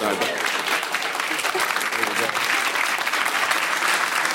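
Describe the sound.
Audience applause: a dense, steady wash of clapping and crowd noise that stays loud and even throughout.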